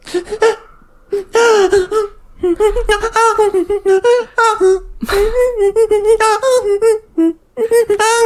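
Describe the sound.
A voice imitates a woman crying and breathing into a phone, making many short, squeaky, wavering high-pitched whimpers and sobs broken by brief gasps and pauses.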